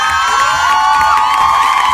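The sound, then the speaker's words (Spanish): A crowd cheers with whoops and high shouted voices to mark a birthday greeting. The cheering is loud and excited, with pitched calls rising and falling over about two seconds. “Saludos a todos los Demetrios, 8 de octubre. ¿Usted conoce a un Demetrio? Pues felicítelo porque hoy es su cumpleaños. Un aplausote. Un aplausote.”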